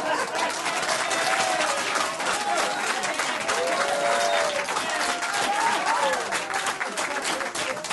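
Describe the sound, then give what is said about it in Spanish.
Audience applause at a live event: steady, dense clapping at an even, fairly loud level throughout, with some voices mixed into the crowd noise. “Fuerte el aplauso para Gabriel Arena.”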